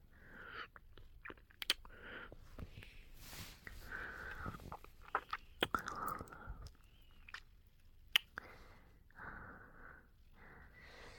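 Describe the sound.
Someone eating sticky food with their fingers makes quiet, wet chewing and smacking sounds. Many irregular soft mouth noises are broken by occasional sharper clicks and faint breaths.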